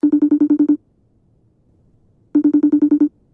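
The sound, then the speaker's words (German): Ringing tone of an outgoing telephone call to Innsbruck: two clean bursts of rapid, low, pulsing tones, about eight pulses each, separated by roughly one and a half seconds of near silence. “Wir springen 1,5 Stunden zurück und tun so, als würden wir jetzt gerade anrufen.”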